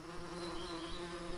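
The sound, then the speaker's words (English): Bees in a hive built inside a wall light switch make a faint, continuous buzzing drone that stays steady and even throughout. “The buzz in this light switch isn't from the electrical charge. It's the sound of an entire ecosystem, a beehive.”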